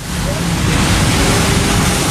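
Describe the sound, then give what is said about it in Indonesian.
Ocean waves crash on a beach at Tamban Indah, where the high morning surf covers the sand. The roar is loud and continuous, with no clear breaks between waves. “Pantai Tamban Indah, tapi ombaknya cukup tinggi di pagi hari sampai hamparan pasirnya habis ditutup ombak”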